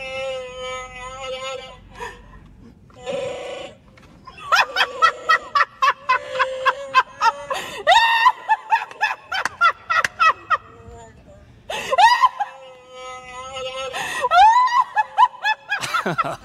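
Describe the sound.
A noise-making laughing mask lets out choppy, gobbling, cackle-like laughs in rapid bursts separated by short pauses. The bursts waver up and down in pitch and grow louder in places.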